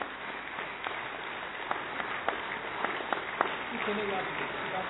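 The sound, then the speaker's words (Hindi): Applause from a standing audience in a hall honouring a navy contingent: steady, moderately loud clapping with scattered sharper claps, and a voice briefly audible near the end. “आप सभी भी खड़े हो जाएं, जोरदार तालियां navy के लिए।”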